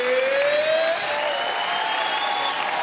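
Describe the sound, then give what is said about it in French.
Concert audience applauding the Orchestre Philharmonique de Radio France, a dense, even wash of clapping that holds through the whole stretch and eases slightly after the first second. “Et ça, c'est le public.”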